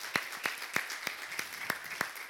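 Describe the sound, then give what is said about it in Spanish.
Sharp, evenly spaced hand claps during a church service on Workers' Day. The claps come at a steady beat of about three per second and stay fairly faint and crisp. “vamos a darnos un aplauso, ¿sí? Porque somos todos nosotros.”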